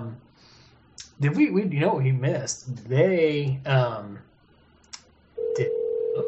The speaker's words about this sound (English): there's a phone call.